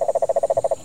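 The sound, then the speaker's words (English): Tree frogs in a rainforest give a rapid, evenly spaced series of short, mid-pitched croaking pulses, fairly loud and clear, ending abruptly. “There's the tree frogs and occasional parrots and different types of monkeys.”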